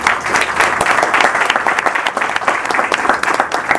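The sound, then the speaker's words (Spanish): Audience applause greets a person introduced on stage at a session: loud, busy clapping from many hands, with a slightly uneven rhythm as individual claps stand out, continuing without a break. “un aplauso para él”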